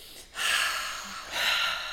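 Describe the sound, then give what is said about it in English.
Deep breathing during a guided relaxation exercise: two soft, airy rushes of breath with a short pause between them, quiet and with no talk. “We're going to take a nice deep breath and breathe out.”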